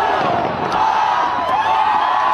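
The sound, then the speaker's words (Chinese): Crowd cheering at the Sydney Harbour New Year's Eve countdown just before the fireworks, a dense, continuous roar of many voices that stays loud and even throughout. “夜，在人们的欢呼声中，倒计时钟落下了最后一个红点。一场跨越新年的焰火盛典在人们的期盼中终于开始了。”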